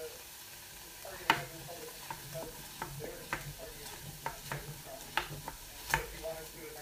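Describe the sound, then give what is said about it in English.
Food is stirred in a cooking pan just after the heat has been switched off: many light, irregular scraping strokes over a faint lingering sizzle. “I've turned the heat off now. I'll just continue to stir it for a bit.”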